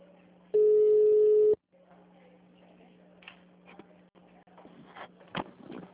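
A telephone ringback tone heard while a call is being placed: one long, steady low tone lasting about a second, followed by a quiet humming line with faint scattered clicks.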